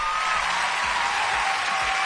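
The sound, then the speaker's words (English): Clapping hands in a dense, continuous patter that holds an even loudness for the whole stretch, with no voices. “Oh, let me just clap hands for myself”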